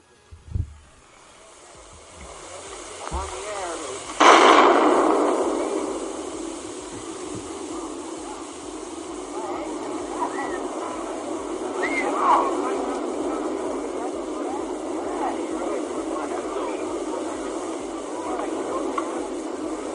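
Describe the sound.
A recorded atomic bomb explosion: a sudden broad blast strikes a few seconds in, then a long, sustained roaring rumble with hiss that slowly fades but never stops.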